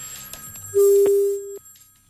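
A single steady, mid-pitched electronic telephone tone sounds for under a second on a congested phone line whose incoming calls keep connecting and dropping. It stands alone over faint background noise.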